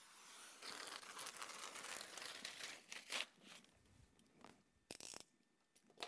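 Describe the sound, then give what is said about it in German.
Paper tears and crumples as someone breaks through a paper wall during a symbolic gesture at a morning gathering. Dense crackling and ripping runs for several seconds, with a few sharper tearing bursts near the end. “möchte ich heute Morgen einfach symbolisch mit dieser Papiermauer durchbrechen”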